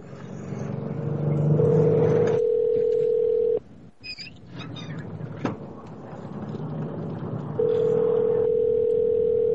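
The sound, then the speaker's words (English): A telephone dial tone sounds while calling a number back: a steady, flat tone in two stretches separated by a quieter gap with a few clicks, over a low background rumble. “I'm calling him back. He's not going to answer.”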